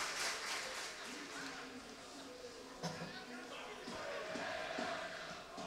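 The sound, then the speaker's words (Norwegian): Football crowd cheering and shouting in the stands during a Tromsø match, a rolling, moderately loud murmur of many voices with a man talking over it. “Ja, heia til, ropes det på tribun.”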